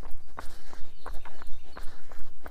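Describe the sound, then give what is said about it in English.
Footsteps of an easy, loping jog downhill beat out a steady, even rhythm of many soft thuds that continue throughout. “We're just doing kind of like a lope. Very easy jog down the hill.”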